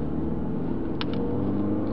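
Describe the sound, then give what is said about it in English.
Steady low road rumble of a car driving across town, captured by a recording device hidden on a passenger, with a brief double tap around the midpoint. “You can hear the road noise on the device.”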